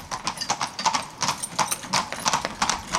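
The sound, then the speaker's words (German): Carriage horses' hooves clip-clop along on a car-free island, many crisp hoof strikes in a steady trotting rhythm. The strikes are moderately loud and clearly separated, with no voices over them. “Doch damals wie heute erwartet den Gast ein typisches Geräusch der Insel: das Pferdegetrappel.”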